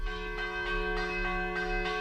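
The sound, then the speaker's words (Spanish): Church bells from a castle in Vilamalefa, Castellón, Valencia, ring a civil fire-alarm peal: rapid, evenly spaced clangs about a third of a second apart over a sustained, ringing bell tone. “Este en particular es un repique civil de campanas a fuego del castillo de Vilamalefa, que está en Valencia”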